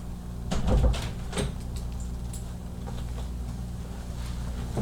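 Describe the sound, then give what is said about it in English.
A door is opened with a few quick knocks and a rattle of the handle and frame. A faint steady hum is left underneath as the room goes quiet. “I was opening the door for the cat who was screaming. Oh, I thought it was my door.”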